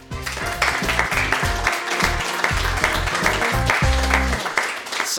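An audience applauds to welcome a guest, a steady wash of clapping that holds throughout over a bed of sustained musical chords.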